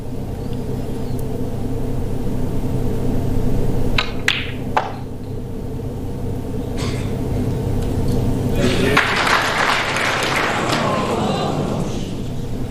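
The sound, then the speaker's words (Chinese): Applause from a snooker audience bursts out briefly and stops abruptly after a couple of seconds, following quieter stretches with a few dull knocks. “对，这个掌声有点戛然而止啊”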